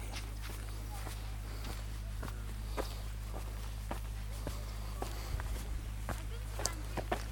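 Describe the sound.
Footsteps of people walking on a crowded beach at Durdle Door: many soft, fairly regular steps with faint crunches, quiet over a low steady hum.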